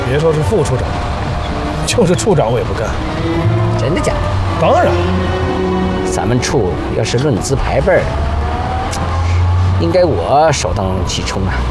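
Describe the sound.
A car's engine drones steadily underneath people talking inside the vehicle.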